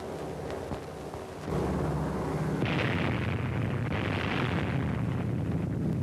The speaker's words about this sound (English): There it goes. The fourth atomic bomb has been successfully detonated.